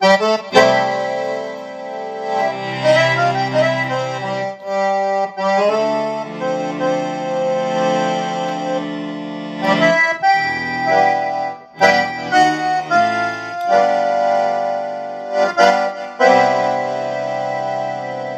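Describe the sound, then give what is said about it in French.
Accordion tones from a digital accordion's first preset on power-up, playing sustained reedy chords and melody notes in phrases broken by short pauses, heard alone. “Alors voilà un son d'accordéon que je vous avais montré déjà la dernière fois. C'est en fait le premier son qu'on a quand on allume l'instrument.”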